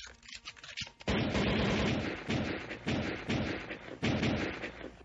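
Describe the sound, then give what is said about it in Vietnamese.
Gunshots are fired repeatedly at a person in a bedroom, striking the bed and wall. A few sharp, heavy bursts punch through a dense, continuous rumble. “bắn liên tục cho mấy phát đạn”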